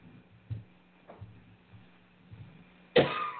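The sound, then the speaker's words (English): One sharp, loud cough, set off by a tickle in the throat, breaks a quiet stretch of faint soft rustles near the end. “I got a tickle in my throat. I hate when that happens.”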